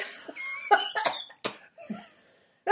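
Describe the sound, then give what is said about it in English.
Several harsh, raspy coughs from a person with allergies, short bursts separated by brief pauses, with the last sharp cough coming after a longer gap. “The devil's cough.”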